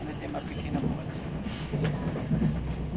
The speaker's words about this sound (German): On behalf of SNCF and Deutsche Bahn, members of the Rheintim Alliance, welcome on board this TGV to Stuttgart via Strasbourg and Karlsruhe